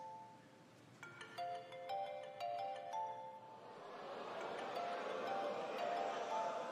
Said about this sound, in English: Go on and answer your phone